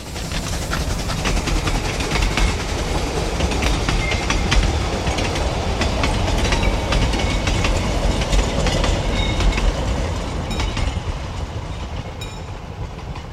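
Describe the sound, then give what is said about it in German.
A train passes with a loud, continuous rumble and the rhythmic clickety-clack of wheels over rail joints, holding steady before easing slightly toward the end. “Der Zug fährt hier 8:55 vorbei.”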